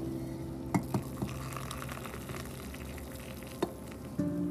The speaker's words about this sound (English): I thought my coffee was ready, but I didn't push the little lid on all the way. Here we go. This, my friends, is the sound of heaven.